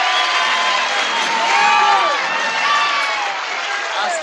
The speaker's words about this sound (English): So how about a nice Martha White welcome for Alonzo and Oscar? Let's give them a nice welcome.